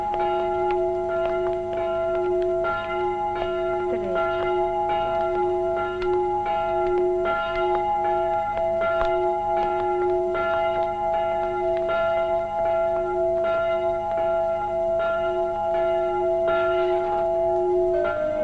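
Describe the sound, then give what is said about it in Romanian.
Church bells toll a funeral knell in a steady, resonant ring. Repeated strokes sustain over the whole clip at an even loudness, with long overlapping hum tones and no voices. “Clopotele au răsunat solemn. Era dangătul funebru pentru Tom Sawyer și Huckleberry Finn.”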